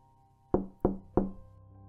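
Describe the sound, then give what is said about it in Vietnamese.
Knocking on a door: three quick, firm raps with a low, resonant thud, evenly spaced in a short burst and heard alone against near silence. “Chợt có tiếng gõ cửa vang lên”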